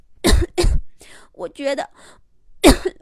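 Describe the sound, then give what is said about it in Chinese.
A voice imitates a sick rabbit coughing: two quick, harsh coughs, then spoken words, then a third loud cough. “狮子兔闭着眼睛，一边咳嗽一边说”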